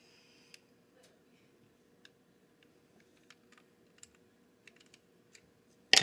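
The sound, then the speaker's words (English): Faint, irregular ticks and small clicks of a screw being unscrewed from a Nerf gun, scattered over a few seconds against a quiet hum, ending in a sudden louder clatter. “And I just need to unscrew that screw.”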